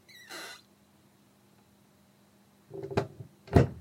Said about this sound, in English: So this is a cupboard in an old kind of big sideboard thing. And when I'm cooking, sometimes that door opens on its own.